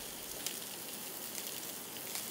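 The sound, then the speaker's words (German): Crab meat fries in a pan over medium heat, giving a dense, even sizzle with occasional small pops and crackles that continue steadily at moderate volume. “Bei mittlerer Hitze von beiden Seiten braten, bis das Fleisch weiß wird.”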